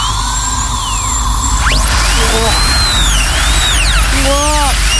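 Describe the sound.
A dentist's drill gives off a loud, continuous, high-pitched whine. Its pitch sweeps up and down in several arcs as it runs without a break.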